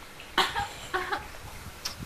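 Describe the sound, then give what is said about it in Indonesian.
A voice imitates a sick turtle's cough: a few short, breathy coughs spaced irregularly, fairly faint against a soft background. “Hari ini kura-kura lagi sakit. Kenapa? Sakit batuk.”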